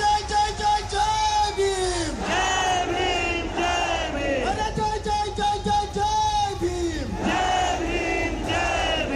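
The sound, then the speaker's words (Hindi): A rally crowd at Jantar Mantar in Delhi, holding tricolour flags, chants Jai Bhim slogans. Loud voices rise and fall through several repeated shouted phrases. “हाथों में सभी के तिरंगा था तो जुबां पर जय भीम के नारे।”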